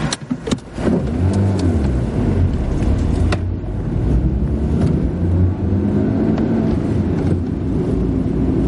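A car starts and drives off: a few sharp clicks and bumps at the start, then a steady engine hum and revving that carries on to the end.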